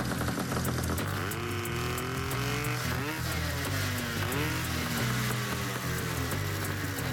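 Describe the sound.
Small go-kart engine running on a bench, too rich with excess fuel and oil and smoking, giving a steady, rough, sputtering drone that rises in pitch a couple of times as it is revved.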